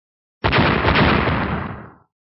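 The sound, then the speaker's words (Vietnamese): A loud explosion from clashing magical attacks in a fantasy fight: one dense, roaring blast lasting over a second before it cuts off. “Hai tiếng nổ mạnh liên tiếp truyền ra”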